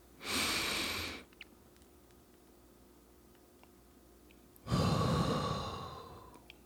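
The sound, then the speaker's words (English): A deep breath drawn in and then released: two broad, breathy rushes of air separated by about three seconds of near silence, with the second breath slightly longer and fading out gradually. “Let's take a deep breath in for 3 to 4 seconds and then release.”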